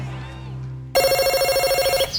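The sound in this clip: A telephone rings with a loud, warbling trill that lasts about a second. It bursts in after a low, steady hum, then stops abruptly.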